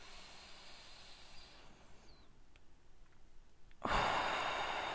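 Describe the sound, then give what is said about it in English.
A single deep breath taken during a short guided meditation. Near-silent, faintly hissing quiet gives way late to a sudden, loud, airy rush that holds steadily to the end. “I want you to take 3 deep breaths and then open your eyes.”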